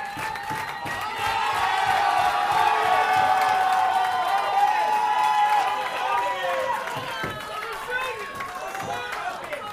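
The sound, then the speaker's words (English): A wrestling crowd cheers and rallies behind a female wrestler: a dense, sustained roar that swells after the first second and stays loud, with shouted voices and whoops throughout. “Crowd rallying behind Shepherd.”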